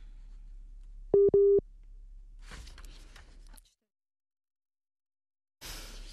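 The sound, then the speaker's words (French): A telephone busy signal on a dropped line: two short, steady, identical beeps, followed by soft line hiss that cuts out to silence before faint noise returns. “Je crois que malheureusement, la ligne a droppé.”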